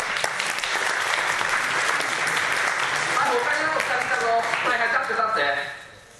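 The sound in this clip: An audience applauds with steady, dense clapping that stays loud for several seconds and then quickly fades away.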